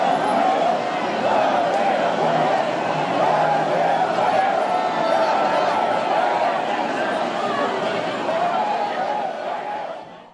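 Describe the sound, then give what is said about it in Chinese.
A crowd of overseas Chinese and students lines the roadside to welcome a visiting motorcade, producing a dense, steady wash of many voices that holds at an even level before fading at the end. “华侨华人和留学生代表聚集在道路两旁，挥舞中美两国国旗，热烈欢迎习近平主席到访。”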